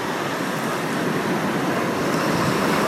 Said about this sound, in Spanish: Y aunque escucháis estas olas donde estoy